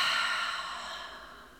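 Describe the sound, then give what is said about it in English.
A slow, deep breath taken during a guided breathing exercise to calm anxiety: one long, soft, airy rush of air that gradually fades, alone with no talking. “Deep breath in through the nose and out through the mouth.”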